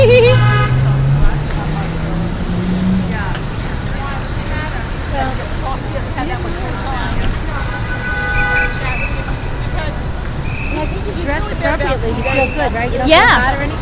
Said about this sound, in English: I don't know if you're going to be ready for a cab ride, New York City crazy cab ride.